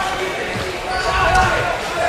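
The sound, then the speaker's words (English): A basketball is dribbled on the court as a high school game runs out the clock, with soft thumps of the bounce under a constant wash of background noise. “So Highland, as they dribble off the clock, they win it by the final margin of 64-9.”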